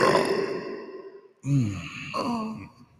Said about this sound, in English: Dude, that was my butthole. Oh, dude. Yeah. You should have let me know. I farted in my mic.